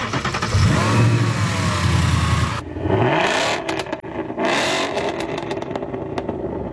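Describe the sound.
A track car's engine starts and revs: a loud mechanical roar that settles, then bursts of revving with the pitch climbing and dropping again, alone with no talk.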